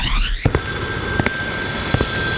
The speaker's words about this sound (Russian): Прозвучал третий звонок. Просьба всех зрителей пройти в зал.